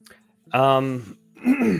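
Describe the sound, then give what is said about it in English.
A sick speaker clears his throat with a voiced, ahem-like sound in two short parts: a steady, low hum, a brief pause, then a second rougher burst. “So real quick, everyone, I'm a little sick. So excuse all the coughs and the ahems.”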